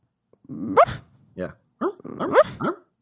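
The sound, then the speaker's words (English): Dog barking in its sleep with its mouth closed, giving several muffled, whimpery woofs in short bursts, each with a rising, oddly synth-like pitch. “The barking she makes in her sleep is such a, it's like a Super Nintendo era dog sound where it kind of sounds like it's being made on a synth.”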